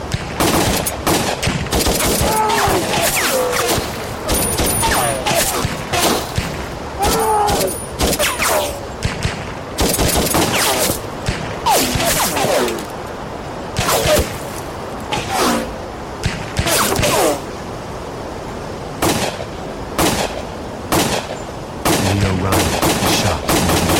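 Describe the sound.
Gunfire from gunmen who spring from a truck beside two planes as people board, many sharp shots in irregular bursts through the whole stretch, with voices heard between and under the shots.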